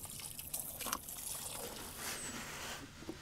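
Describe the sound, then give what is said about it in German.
Leftover clay stirred with water until smooth and workable gives a faint, continuous wet swishing and sloshing. “Mit Wasser verrührt wird er wieder geschmeidig und formbar.”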